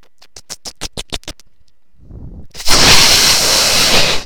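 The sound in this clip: A microphone being handled and rubbed: a quick run of about eight sharp scratchy taps, a brief near-silent gap, a low rumble, then loud continuous rustling friction noise.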